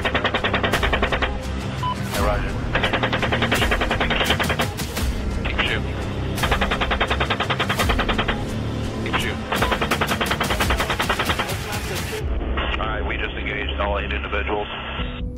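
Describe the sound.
Machine-gun fire from a helicopter in rapid, continuous bursts of sharp cracks, loud and dense throughout, mixed with radio-filtered voices talking.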